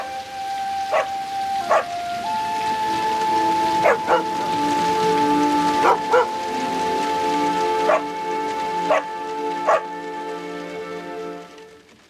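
Barking in the rain: a black dog with a white chest, snapping its jaws at falling raindrops, lets out a string of short, sharp barks at uneven intervals over a steady hiss of rainfall.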